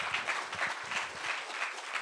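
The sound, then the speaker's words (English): Sustained crowd applause at a university gathering: a dense, steady wash of many hands clapping at even loudness from start to finish, with no break and no voices. “How about another round of applause for Jeff Dice”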